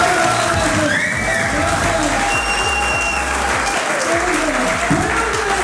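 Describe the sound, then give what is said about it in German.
Prison inmates applaud and cheer at a comedy show held inside a correctional facility in Hagen: loud, dense, sustained clapping mixed with whoops and crowd voices, continuing unbroken from start to end. “So klang es am Abend in der Justizvollzugsanstalt in Hagen. Kein gewöhnlicher Gefängnisalltag, sondern eine Comedy-Show.”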